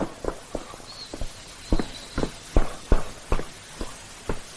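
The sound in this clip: Footsteps walk steadily along a corridor, a regular sequence of many firm, hard steps at a moderate loudness, with no voices.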